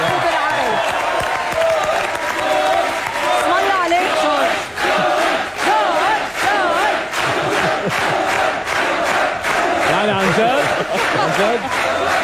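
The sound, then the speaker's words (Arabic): A live audience cheers and applauds loudly without a break, with shouts and whoops over dense clapping as a radio host salutes the crowd. “لا بس الزقفة بتستاهلوها انتو الجمهور عن جد.”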